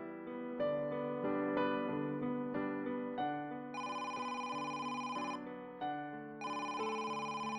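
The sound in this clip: A telephone ringtone plays on its own, a melodic run of bright electronic tones that repeats steadily and loudly with short breaks between phrases.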